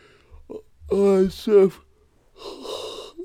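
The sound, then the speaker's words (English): A person yawning, with voiced, drawn-out groaning breaths that swell loudly a couple of times before trailing off into a softer breathy exhale. “I need to stop fucking yawning. I'm ruining this recording and it's actually going well”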